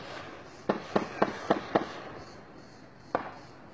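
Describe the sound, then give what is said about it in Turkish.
Pistol gunshots during an armed clash between security forces and militants in Maçka, Trabzon: five sharp cracks in quick, even succession, a pause of over a second, then one more shot. “Bu tabanca ses.”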